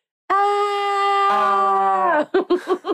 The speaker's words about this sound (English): Scream again. Keep screaming.